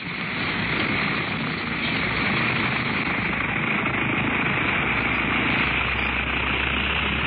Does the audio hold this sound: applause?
no